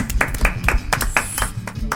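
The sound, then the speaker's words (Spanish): Rhythmic clapping welcomes a guest, a steady run of about eight evenly spaced, sharp claps across two seconds, moderately loud with a low murmur beneath. “Aplauso para Nowa.”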